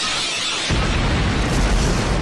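A loud, booming blast from the Draco Blitz attack in a turn-based video game battle, opening with a brief hiss before a heavy roaring rumble swells and holds.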